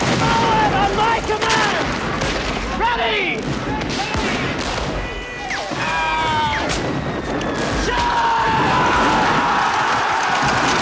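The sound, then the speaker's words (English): Explosions and musket fire in a battle as infantry charge over a dune into Confederate fire: continuous heavy booms and crackling gunfire, loud throughout, with men shouting over the din. “An explosion rips through their ranks, propelling two soldiers through the air, and another group of infantry at the front are mowed down by musket fire.”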